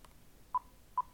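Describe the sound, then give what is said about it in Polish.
A digital recorder gives a double beep as it enters record standby: two short, identical mid-pitched tones a fraction of a second apart, faint and alone. “I słyszymy taki oto właśnie dźwięk podwójny. Wiemy w związku z tym, że jesteśmy w trybie gotowości do nagrywania.”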